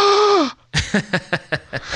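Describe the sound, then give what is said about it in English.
A sharp vocal gasp of surprise, voiced and ending in a falling pitch, is followed after a brief silence by a quick, even run of short breathy bursts. “That was my gasp.”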